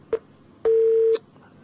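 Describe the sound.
A telephone tone after a call is cut off: one short beep, then a longer steady tone at the same pitch, then quiet.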